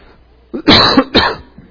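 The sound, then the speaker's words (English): Harsh coughing from someone with bad sinuses: a few rough, breathy coughs in quick succession, loud against a quiet background. “I want to quit coughing.”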